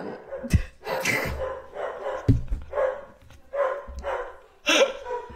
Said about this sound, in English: there's nothing you can follow up quite like a dog barking at every single person that comes to your door